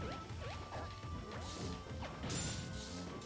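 Crashing smash hits from a melee move in a battle royale video game: a rapid run of heavy whacks with swooshing sweeps, held at a steady, even level with no talk.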